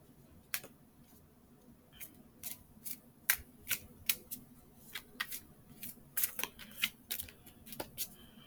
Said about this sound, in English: We flip an outward Queen of Discs.